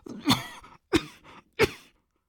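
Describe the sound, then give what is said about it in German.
A woman, doubled over, coughs three times in harsh, separate bursts, each fading into a short raspy tail before a brief pause. The coughs are loud and stand alone, with no talking. “Und sie krümmte sich vor Husten.”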